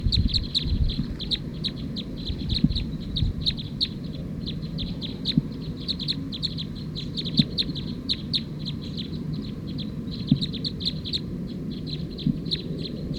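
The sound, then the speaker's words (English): A bird calls steadily in a field recording, a continuous stream of rapid, high, repeated chirps over low background rumble, with no talk. “Those last two birds were mixed up. That was actually bird 220 that was calling as 219.”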